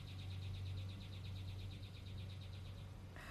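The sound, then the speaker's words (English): A bird sings a rapid machine-gun-like call on a Northeast morning: a faint, fast, evenly spaced stutter of high notes over a steady low hum. “And if you hear that, that's my little machine gun bird. He likes to wish a good morning.”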